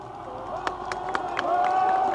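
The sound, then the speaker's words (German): Crowd noise from demonstrators at the Brandenburg Gate in Berlin as a red flag is lowered. A steady murmur is broken by a few sharp, scattered claps, and the sound grows slightly louder toward the end. “Die Demonstranten klatschen, sie schwenken ihre Hüte. Sie rufen, wir grüßen das freie Berlin.”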